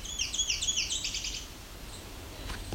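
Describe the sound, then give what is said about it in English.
A myrtle warbler sings a quick, high trill of repeated, slurred notes lasting just over a second. Then it falls quiet, leaving faint background noise with a soft tick near the end. “and that's the myrtle warbler.”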